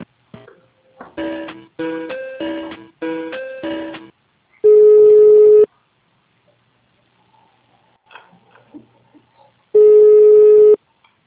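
Telephone tones on a call being transferred to a city hall's PABX switchboard: three clusters of rapid, buzzy beeps, then two long, steady mid-pitched tones separated by a quiet gap with faint muffled sounds.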